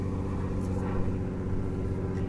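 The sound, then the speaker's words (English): Seaplane flying by along the coast, a steady low droning engine rumble with a humming, buzzy tone that holds evenly throughout, alone without voices. “you might hear the plane going by. I love these planes, these seaplanes.”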